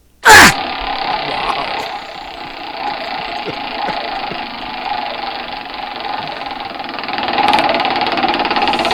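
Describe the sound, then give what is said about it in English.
A person gives a short, loud grunt while spinning a prize wheel for meat prizes, followed by a long, steady whirring rattle of the turning wheel that swells slightly near the end. “can you grunt when you spin it?”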